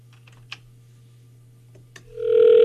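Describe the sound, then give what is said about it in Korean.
Telephone ringback tone from a call placed to a landline: a low steady hum and a couple of faint clicks, then a loud, steady ringing tone sets in only during the final half-second. “자, 신호 갑니다. 김송현님께 전화하고 있어요. 일반 전화.”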